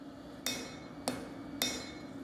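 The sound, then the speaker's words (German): A hammer forges steel for a knife in a knifemaker's workshop, striking three sharp, ringing metallic blows at a steady, unhurried pace, fairly faint with a bright clang on each hit. “Der erste Arbeitsschritt. Der Stahl muss in Form gebracht werden.”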